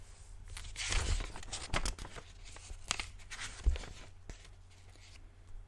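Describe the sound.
Paper pages being flipped: soft crinkling and rustling with a few sharper papery swishes and crackles, quiet throughout, with no talk.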